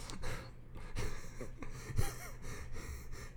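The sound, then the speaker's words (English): Person wheezing close into a microphone: a few breathy, rasping gasps and wheezy breaths in an uneven rhythm, with no words spoken. “You were just wheezing into the microphone. Like, you weren't even laughing. You were just wheezing into the mic.”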